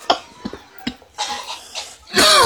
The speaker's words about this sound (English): I'm coughing like they are, but not for the right reasons.